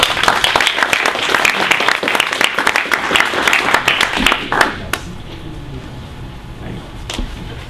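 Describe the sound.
Audience applause greets a speaker at a free-software talk, with dense clapping for about five seconds before it stops abruptly, followed by a quieter stretch with a few scattered sounds.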